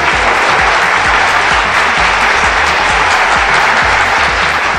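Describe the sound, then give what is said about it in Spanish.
Crowd applause: dense, loud clapping that holds steady for the whole stretch, with no break or voices standing out. “Aplausos. Aplausos.”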